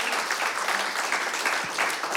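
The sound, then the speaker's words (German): An audience applauds after a live music and singing performance, a steady, dense patter of many hands clapping at once with no pauses. “Also bitte einen Applaus nochmal an diese wunderbaren Menschen.”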